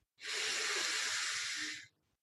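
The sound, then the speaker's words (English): One deep breath in during guided breathwork, a smooth, airy hiss that rises quickly, holds steady for nearly two seconds, then stops abruptly. “So with that, why don't we all just take a nice deep breath in”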